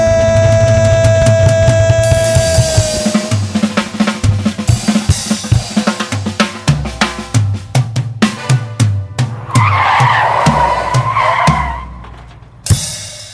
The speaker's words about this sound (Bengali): এই ব্রেকের আওয়াজটা শোনার পর অনেকেই কয়েক মিনিট হয়তো ভাববে কেন আমার অ্যালবামটা ব্রেক কষে শেষ হলো।